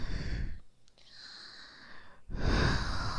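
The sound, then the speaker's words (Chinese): Deep breathing close to the microphone during a guided relaxation session: two long, loud, airy breaths separated by a quieter pause. “经过我几次在你耳边的深呼吸，”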